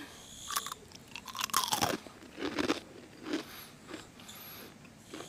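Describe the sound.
Crunchy, slightly burnt snack bitten and chewed, giving several loud, brittle crunches in uneven bursts separated by short, quieter pauses.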